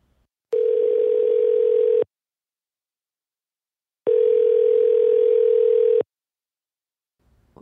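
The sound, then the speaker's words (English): Two long, steady telephone tones play before a voicemail, each lasting about one and a half to two seconds with silence between them. A faint brief sound follows at the end. “We have one more voicemail. Oh, we have another voicemail.”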